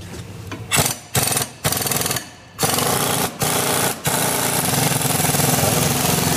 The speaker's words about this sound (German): Das ist jetzt wie so ein richtiger Akkuschrauber, ne? Zu Hause bloß mit mehr mit Druckluft, ne? Genau, ein sogenannter Schlagschrauber.